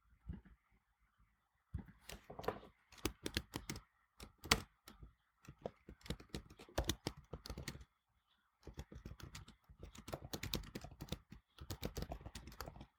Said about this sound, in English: I have to type that down.